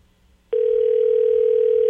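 Ringback tone of an outgoing telephone call: after a short quiet moment, a single loud, steady mid-pitched tone starts and holds unbroken to the end, with no talk over it.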